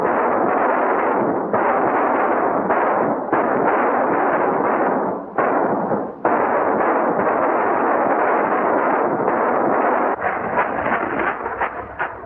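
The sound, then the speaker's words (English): Gunfire exchange as a gang opens fire in a canyon: a loud, dense, continuous rattle of shots with a few brief gaps, breaking into sharper separate reports toward the end. “the gang creeps along the canyon and opens fire.”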